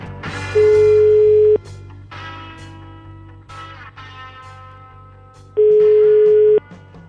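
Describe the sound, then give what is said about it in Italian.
Ringback tone of an outgoing telephone call: two steady, mid-pitched tones, each about a second long and roughly four seconds apart, loud over a continuous musical background. “Chiamate, dai. Fate squillare, vai!”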